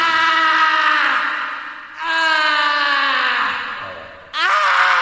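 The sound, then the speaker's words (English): A man screaming through a heavy reverb effect: three long, loud wailing cries, each sliding downward in pitch, with the echo trailing under every one. “All those years, I don't think we've ever tried that before with the reverb. Screaming dude with the reverb.”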